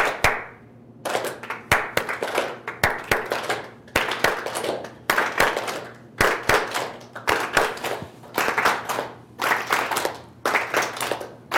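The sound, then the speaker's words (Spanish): Hands clap in a steady, repeating rhythm as a group follows a leader during a teamwork exercise in a workshop. Many sharp claps fall in a regular pattern at an even, moderate level, with no talking. “síganme en este palmoteo, los de acá no, en este ritmo. Eviten aumentar el volumen.”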